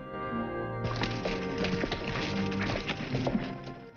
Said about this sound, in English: The Indian brave rushes away and leaps onto his horse, which is tethered next to another, a second Indian already on its back.